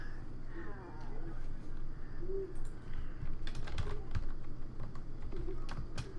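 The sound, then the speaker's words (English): Keys clatter on a computer keyboard while someone types a search into IMDb, a quick patter of light clicks rising out of a background of people talking. “Meredith Eaton? Type it. I guess I have to pull up the IMDb. I can do it.”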